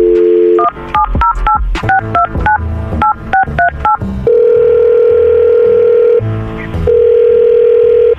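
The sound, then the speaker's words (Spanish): Telephone dialing for a call: a quick run of about a dozen sharp touch-tone beeps in shifting pitch pairs, followed by a long steady ringing tone that breaks off briefly and then resumes. No voices are heard. “Ok, no hable, yo voy a hacer la llamada, ¿ok?”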